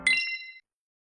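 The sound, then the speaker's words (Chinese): A radio station's hourly time-signal chime: a single bright ding that rings briefly and fades within about half a second. “准确对时，现在是北京时间1点整。”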